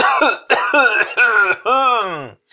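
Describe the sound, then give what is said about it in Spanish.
A voice acting out a boy's coughing fit in a children's story: several rough, tonal coughs in close succession, the last one longer with a falling pitch. “Pero en ese momento Josué tosió”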